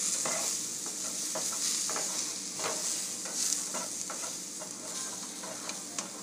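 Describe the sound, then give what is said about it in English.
Sweet potatoes sizzle in a frying pan as a steady, fairly faint hiss with scattered light scrapes and clicks from stirring. No one speaks. “Cooking up some of the sweet potatoes I got.”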